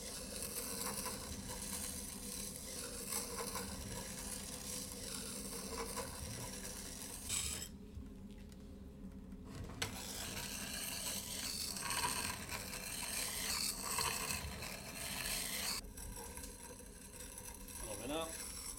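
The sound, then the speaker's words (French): A plane iron held at a 30-degree angle is sharpened on a sandstone grindstone, making a steady grinding rasp with faint mechanical rattling. The sound runs throughout, with a few brief quieter dips. “Je vais te montrer comment on affûte un fer drabot. Tout d'abord, on affûte toujours sur une meule à grès.”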